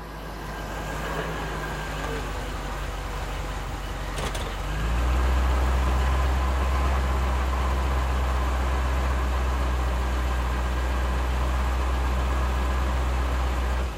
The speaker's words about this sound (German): Der Motor des geparkten SUVs erstirbt zwischen den Bäumen.